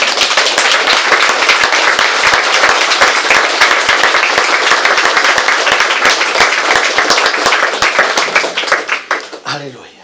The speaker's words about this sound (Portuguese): Você pode aplaudir o Senhor.